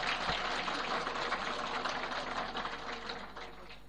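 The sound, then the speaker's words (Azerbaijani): Applause for the elders at a gathering, a fine, rapid patter of many hands clapping, fairly faint overall and easing slightly toward the end. “Məclisdə axsəkkəllərin sağlığına bir dənə əl çalıb mən başlayayım.”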